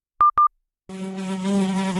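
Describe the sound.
A housefly buzzes with a steady, droning hum that grows slightly louder, after two short electronic beeps and a brief silence.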